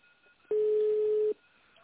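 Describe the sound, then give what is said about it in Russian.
A single steady telephone tone on a line to an office phone system, where callers dial an extension in tone mode. It plays as one clear mid-pitched beep lasting under a second against quiet line hiss. “Если вы знаете внутренний номер сотрудника, наберите его, пожалуйста, в тональном режиме.”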